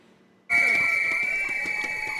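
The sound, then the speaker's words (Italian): Shrill whistles blown by car factory workers protesting job cuts, with union red flags, outside a historic car plant in Wolfsburg, Lower Saxony. A loud, piercing, overlapping chorus of whistling starts abruptly after a short quiet moment and holds steady throughout. “Marciano con i fischietti e le bandiere rosse del sindacato IG Metall davanti allo storico stabilimento di Wolfsburg in Bassa Sassonia”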